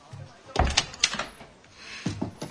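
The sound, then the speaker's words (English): A door at a boarding house opens and shuts: a few soft wooden knocks and rubbing scrapes, quiet and separated by short pauses. “Inman, bare-chested, opens the door”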